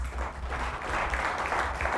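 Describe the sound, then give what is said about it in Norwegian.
Audience clapping together, a dense, steady patter of many hands that holds at an even, fairly loud level for the full two seconds, with a low hum underneath. “Gi deg en klapp, dere.”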